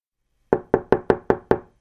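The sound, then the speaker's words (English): Six evenly spaced knocks on a wooden door, each sharp and resonant with a short decay, sounding alone against silence. “knocked on the door.”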